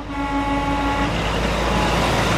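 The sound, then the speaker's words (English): Trucks idling outside a container yard in Portland, Oregon, on a weekday morning: a steady, dense low engine rumble, with a faint humming tone that drops away partway through. “It's a weekday morning, and a tangle of trucks idles outside a container yard in Portland, Oregon.”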